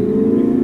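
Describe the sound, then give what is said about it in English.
Brief, steady low engine rumble from a Dodge Charger fitted with a MagnaFlow exhaust, a deep throaty drone held at an even loudness through the short revving burst. “You got to stand on it if you got a charger, right? Or no, that's a Mustang. Sorry. No, that's a charger. Is it a charger? Yeah, that's the sound of raw horsepower Raw horsepower. The demon. That's called MagnaFlow.”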